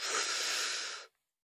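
A deep breath in during a guided breathing exercise, heard as one long, airy hiss lasting about a second. It is fairly soft and alone, then cuts off cleanly into silence.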